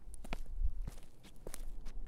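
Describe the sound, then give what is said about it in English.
Faint footsteps of someone walking toward a film shoot after parking a car. Several soft steps fall at an uneven, steady walking pace under low background noise. “I park the car and walk towards the scene”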